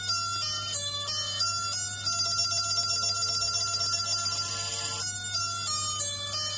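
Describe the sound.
A telephone rings with a steady electronic ringtone, repeating the same bright melodic pattern of tones continuously and loudly, with no talk over it.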